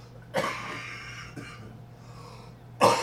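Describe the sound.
Someone coughing after breathing in a drink: three harsh, rasping coughs spaced apart, the last one loudest, with quiet breathing between them and no talk.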